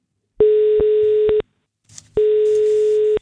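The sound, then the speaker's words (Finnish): A telephone dial tone sounds before a call is placed. It is a steady, unbroken electronic hum that plays in two long stretches, separated by a short gap holding a brief, faint noise. “Nyt on aika soittaa yhdelle, joka tämän 30 euron arvoisen lahjakortin itselleen saa.”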